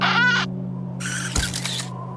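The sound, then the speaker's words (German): A camera going off while photographing rockhopper penguins: a short whirring mechanical burst, then a longer bright rattling burst with a sharp click in the middle, both over a steady low hum. “Aber die mochten das Geräusch seiner Kamera nicht und suchten schnell das Weite.”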